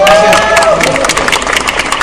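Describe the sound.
A brief voice gives way to applause and cheering from a live audience welcoming a guest. The clapping is loud and dense, with bright, crackling claps that continue to the end.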